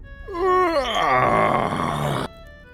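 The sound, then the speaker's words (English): A voice imitates a big, drawn-out yawn from a carved gargoyle face on a den door: one loud, groaning vocal sound held for about two seconds before it cuts off abruptly. “it scrunches up its face and lets out this like big yawn, like”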